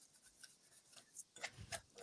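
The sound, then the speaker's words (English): Paper seed-draw slips being shuffled in a bowl make a soft, irregular rustling and scraping, with quiet scratchy strokes at first and a few sharper, louder rasps toward the end. “Very well shuffled.”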